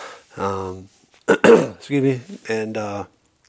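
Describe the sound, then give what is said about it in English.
A person clears their throat with a few voiced, hum-like grunts around a short harsh rasp, moderately loud with brief pauses between the sounds. “trying to clear out my throat here.”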